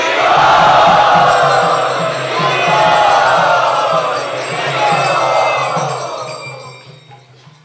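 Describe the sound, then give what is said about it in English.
A large crowd enthusiastically chanting Hari Bol in welcome at a Gaur Purnima gathering, loud massed voices rising in about three sustained swells before fading away. “Let us very, very enthusiastically welcome them by raising our arms and chanting Hari Bol.”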